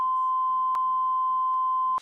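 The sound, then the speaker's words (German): A censor beep covering a brand name sounds as one steady, mid-pitched sine tone held for about two seconds. Faint speech murmurs beneath it, and it cuts off at the end. “Und müssen wir es piepsen, weil es Werbung ist?”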